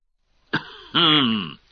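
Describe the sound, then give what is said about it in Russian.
A man coughs into his fist: an audiobook narrator who has just rested and wet his throat. A short sharp burst is followed by a longer voiced, rasping throat sound. “Кашлянул в кулак отдохнувший и промочивший горло чтец.”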